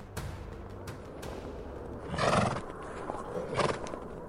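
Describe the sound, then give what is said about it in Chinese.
A ridden horse neighs over soft hoof clip-clops. The sound stays faint throughout, with two louder whinnying swells near the middle and toward the end. “驾！ 就这样，安娜骑上马儿后，开始了寻找姐姐艾莎的冒险之路。”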